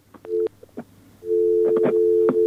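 Telephone busy tone after a phone call is disconnected: a brief tone burst, a short gap, then a steady, continuous mid-pitched tone that holds to the end.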